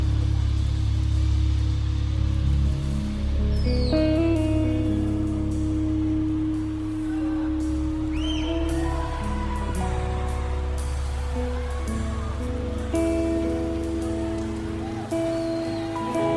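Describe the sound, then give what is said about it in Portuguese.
An audience at a live worship concert taps their fingers to imitate rain, making a steady, continuous patter that runs the whole way through under sustained music. “Vamos escutar o som da chuva de Deus molhando aqui.”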